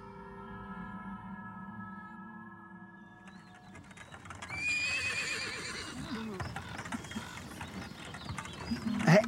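Horses pulling a wagon whinny loudly and repeatedly, with hooves clip-clopping underneath, all following a quieter, steady tonal opening.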